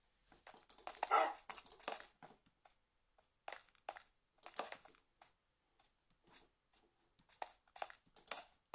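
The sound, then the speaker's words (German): A dog in a video game gives many short, irregular barks and yelps, scattered in uneven clusters with gaps between them. The sounds are faint and crisp, with no talk. “Mein Hund ist auch nicht da. Kommst du? Ja, da bist du ja.”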